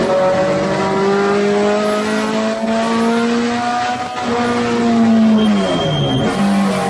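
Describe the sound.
A car's engine revs hard to 8,000 rpm in third gear around a scary corner before a hairpin on a race track, its pitch climbing steadily for several seconds, then dropping sharply and picking up again, loud with no talk.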